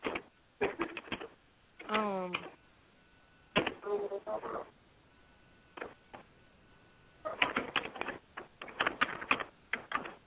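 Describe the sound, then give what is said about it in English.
Keyboard typing comes in irregular bursts of rapid clicks, separated by quiet gaps and a few brief voiced sounds. “stop typing in my motherfucking ear.”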